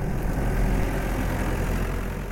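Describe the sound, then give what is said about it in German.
Forklift engine as the machine drives past carrying two sacks of gravel: a steady, low, rumbling drone at an even level throughout, with no voices. “ein Gabelstapler mit zwei Säcken Kies fährt vorbei”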